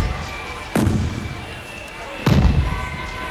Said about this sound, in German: Böllerschüsse.